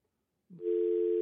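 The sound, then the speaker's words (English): A steady telephone line tone after a dropped call, beginning abruptly after a brief soft thump and holding at an even pitch to the end. “I think his phone dropped.”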